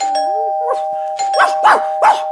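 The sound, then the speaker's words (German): A doorbell at home rings with a steady sustained tone while a dog barks several times, mostly in the second half. “Es läutet.”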